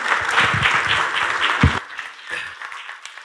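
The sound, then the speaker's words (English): A church audience applauds to welcome the senior pastor and founder of the ministry, a burst of full clapping that thins out after a moment into a few scattered, fading claps. “So let's welcome our senior pastor and the founder of this ministry, Mr. Brian Wright.”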